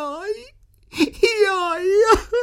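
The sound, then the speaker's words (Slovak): Someone crying with drawn-out, wavering wails and moans that break into whimpers, a few sobbing cries in a row with a quaver in pitch. “Nestihli sa ani vybaliť, keď tu začuli niekoho plakať.”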